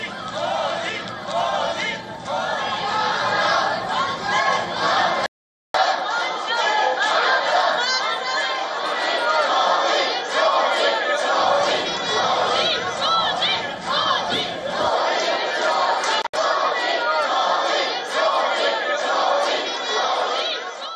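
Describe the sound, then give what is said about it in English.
An Indian diaspora crowd in Melbourne chants slogans to welcome Prime Minister Modi. Many voices shout loudly and continuously in rhythmic unison, broken once by a brief cut of silence early on. “A large number of community members gathered to welcome the Prime Minister, chanting slogans.”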